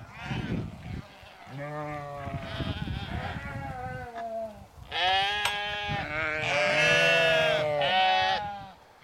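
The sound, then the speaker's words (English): Leicester Longwool sheep, a mix of this year's lambs and older ewes, bleating loudly. Several wavering, harmonic calls overlap and follow one another throughout, with high and lower-pitched voices mixed together. “So this is a mixture of some of this year's lambs and some older ewes.”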